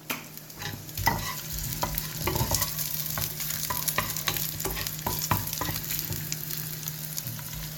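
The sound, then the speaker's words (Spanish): Chorizo sizzles in a pan with tomato, a little salt and oil, while utensils stir it now and then. The frying is a soft, steady crackle, broken by scattered faint clicks and scrapes. “El chorizo no hay que hacerlo mucho porque si no se quemaría. Solamente que caliente y coja un poquillo de color.”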